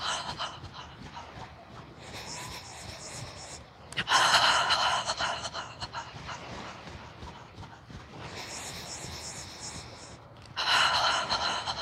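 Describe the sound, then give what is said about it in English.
Nasal inhales alternate with breathy open-mouthed "ha" exhales during a yoga breathing exercise. A few rushing, airy breath cycles follow one another, with the exhales swelling louder and no speech. “You can use that breath again when you inhale through your nose and exhale with a ha.”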